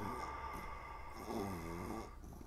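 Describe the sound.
A dog's big yawn, a drawn-out breathy whine with a wavering squeaky tone, rising briefly out of quiet background noise and fading after about a second.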